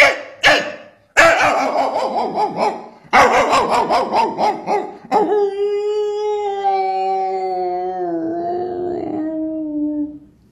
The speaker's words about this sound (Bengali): তখন সে আরেকটা কুকুরকে দেখলে পারে কিভাবে চিৎকার করে